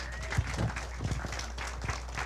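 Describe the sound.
Applause for a guest speaker at a morning service, scattered hand claps from a small audience, fairly faint, over a steady low hum.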